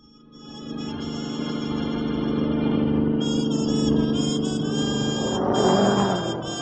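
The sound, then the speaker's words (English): Car engine driving fast: a steady, loud roar builds in the first second and holds, with sustained tonal droning and brief harsher surges near the end. “I wish you wouldn't drive so fast”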